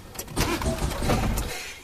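A car engine starts. A short mechanical whir turns into a rough, fairly loud engine rumble that holds steady and then tails off, with no talk.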